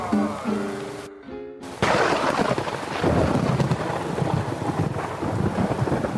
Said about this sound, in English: That is the sound of another Brazilian storm about to land on our fucking heads.